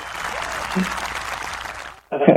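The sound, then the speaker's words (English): Audience applause for a performer, cheered from a parking lot, forms a steady dense wash for about two seconds before a voice starts speaking over a sudden louder burst. “lots of applause for Richard there. Yeah, they're going nuts.”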